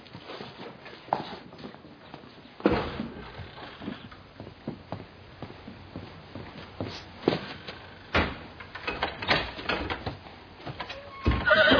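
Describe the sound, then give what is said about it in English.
Thuds and shuffling footsteps come from a new goat being pulled out of a trailer, with a few sharp knocks and short animal calls over a noisy, muffled background. “I got Pop a new goat. Want to go out there and pull him out of the trailer?”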